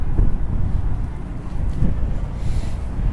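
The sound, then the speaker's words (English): Breezy wind outdoors on a mild day buffets the microphone with a steady, low, rumbling roar that keeps an even loudness throughout, with slight gusty flutters. “So it's actually not too cold out right now. It's a bit breezy.”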